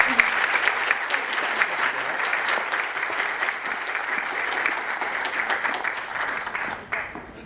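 Audience applause for a participant after an on-stage question session: dense, steady clapping that stays loud for several seconds and thins out toward the end.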